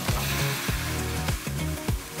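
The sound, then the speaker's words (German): Shrimp heads and tails frying in hot fat: a bright sizzle with a few sharp crackles and pops scattered through it, no talk. “Die Köpfe und Schwänze der Garnelen werden in heißem Fett frittiert. So, jetzt kommt der Wermut dran.”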